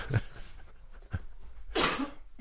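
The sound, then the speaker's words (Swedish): A coughing fit with a few rough, breathy coughs spaced across the moment, the last burst the broadest and loudest, all fairly faint. “Sen fick du en hostattack.”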